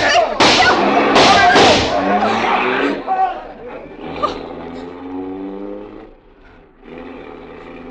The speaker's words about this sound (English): There's a bullet in the window shield. Oh, someone is trying to kill you.